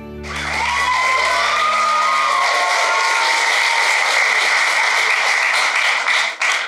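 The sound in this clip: Sustained applause from an audience welcoming a speaker at an evening gathering, dense and steady for several seconds with a few whoops mixed in, before breaking off at the end.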